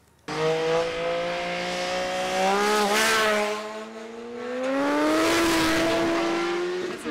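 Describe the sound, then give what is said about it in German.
Roaring engines of cars speeding over 100 km/h into a bend on a road with a solid centre line, one overtaking; a loud, continuous engine whine whose pitch climbs and holds high in the latter half, with no talk. “Hier mit, keine Ahnung, über 100 km/h in die Kurve, die überholen, trotz durchgezogener Linie, es interessiert sie nicht.”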